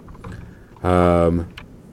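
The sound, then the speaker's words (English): Someone types on a computer keyboard during an online group call. A few scattered key clicks are heard alongside a brief, loud, steady buzzing tone in the middle. “Jackie, who's typing? That was me. Okay. I'm trying to type my description, sorry, of what I've been doing.”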